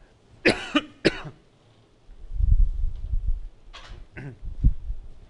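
Two sharp coughs from someone with something caught in the throat are followed by a low, rumbling stretch of throat clearing and a few more rough, throaty bursts.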